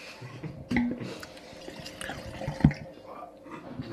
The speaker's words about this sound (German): Jetzt haben wir den Chardonnay Pure, die zweite Füllung. Ich würde sagen, damit es hier nicht so trocken abläuft, schenken wir uns den mal ein.